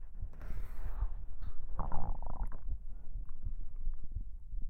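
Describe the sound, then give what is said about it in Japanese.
A stomach rumbling: low, bubbling gurgles that keep going throughout, with a couple of brief higher squeaky gurgles near the start, all fairly faint and without talk. “お腹の音も聞こえた？”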